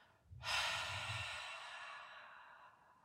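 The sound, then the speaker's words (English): One long, forceful exhale empties the lungs while bracing with a lifting belt. It is a breathy rush that starts abruptly and fades slowly over a couple of seconds, heard alone. “First, I like to think about exhaling all of my air”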